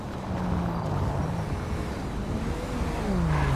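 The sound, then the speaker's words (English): Engine of a BMW car just spawned in a video game, a loud steady drone with a low tone that dips slightly and lifts again near the end, with no talk over it. “Okay, I'm just gonna spawn in a BMW. Let's see if that one will spawn.”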